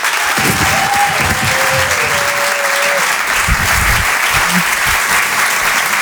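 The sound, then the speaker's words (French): Comedy club audience applauding a comedian, a dense, loud, steady wash of clapping that holds evenly through the whole stretch without pausing. “Le Rire et Chanson Comedy Club. Faites du bruit, s'il vous plaît, pour Romane Dodwick.”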